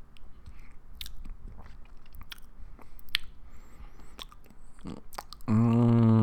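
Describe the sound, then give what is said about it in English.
Biting and chewing on a sugary food: moist mouth noises with a few sharper crunchy bites scattered through steady, soft chewing. “How's it taste? Yeah. Give me a bite.”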